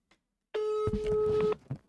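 Telephone tone as a call is placed to a fast-food restaurant: one steady, buzzy tone lasting about a second, preceded and followed by faint soft noises.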